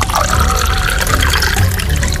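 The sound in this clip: Tea poured into a glass, a steady, loud splashing trickle of liquid that runs unbroken for about two seconds with no voices.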